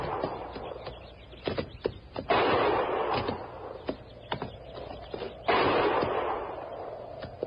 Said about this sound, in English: What? Didn't sound like no regular shooting.